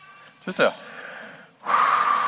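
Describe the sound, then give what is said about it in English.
A big, deep breath: a short, sharp breath, then after a pause a longer, louder, rushing breathy sound that holds steady to the end. “Let's just take a big, deep breath.”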